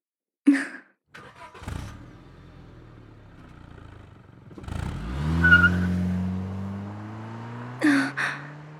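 Car driving off: a few short knocks and thuds, then an engine swelling into a loud, sustained acceleration that slowly tapers, with brief sharp sounds at the start and end.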